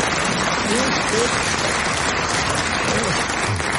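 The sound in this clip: Applause from a studio audience at a comedy panel game, a dense, steady wash of clapping that carries on without a break.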